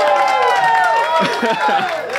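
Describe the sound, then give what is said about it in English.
A rowdy live audience at Growler House in Spartanburg cheering, whooping and clapping in a loud, continuous mass of voices and hands. “And we're taping live in front of a rowdy audience here at Growler House in Spartanburg. Hey, Spartanburg!”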